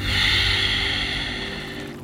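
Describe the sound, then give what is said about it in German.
A slow breath taken during a calm breathing and meditation exercise: a single soft, airy rush of breath noise that gradually fades away, with no voices. “Einatmen. Ausatmen.”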